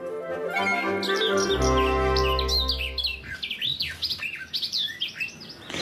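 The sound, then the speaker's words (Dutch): A garden warbler, the first back in the Reeuwijk lake area despite the cold, sings a fast, high warbling run of chirps and twitters. The song is partly over a loud, low, steady tone in the first half, then carries on alone. “Met Jack Witteveen in het Reewijkse plassengebied bij de Surfplas hoor ik hier de eerste tuinfluiter fluiten. Ondanks de kou toch teruggekomen.”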